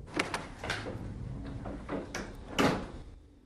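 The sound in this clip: A bathroom door is opened. A few quiet clicks and knocks come from the handle and latch, followed by a slightly louder thump near the end, all at low level with no voices.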